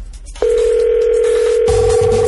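A telephone tone sounds after a call is dialed: a loud, steady single-pitched tone starts abruptly and holds without a break, with a faint low buzzing joining near the end.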